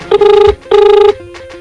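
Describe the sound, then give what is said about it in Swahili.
Ringback tone of an outgoing mobile phone call on a Vodacom line: two long, loud buzzing rings with a fast warbling pulse, separated by a short gap, with no talk. “Nampigia tu. Sasa simu yake anaita.”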